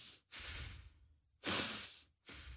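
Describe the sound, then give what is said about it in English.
Slow, soft breaths drawn in and pushed out through the nose. A few breathy rushes are separated by short pauses, with the middle breath the strongest, and no voice is heard. “I want to just start by breathing in through the nose, out through the nose, and you're going to follow my lead.”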